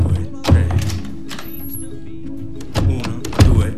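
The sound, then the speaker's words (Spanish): A door latch is worked by someone who must move it three times before opening or closing a door: three dull thunks, one near the start and two close together near the end, over a low steady hum. “antes de abrir o cerrar una puerta tiene que mover el pestillo tres veces.”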